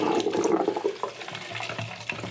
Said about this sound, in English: get rid of the rest of this water, wash my tanks out